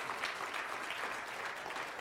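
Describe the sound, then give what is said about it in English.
An audience claps throughout in a dense, even patter of applause, fairly faint and steady, with no voices over it. “I'm glad you're clapping”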